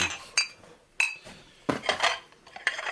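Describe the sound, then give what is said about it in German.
Plates clink and clatter as they are packed into a cardboard box: a few sharp, separate knocks of crockery, then a busier run of rattling and chinking near the end, with no talking. “Packen Sie die Teller in den Karton da.”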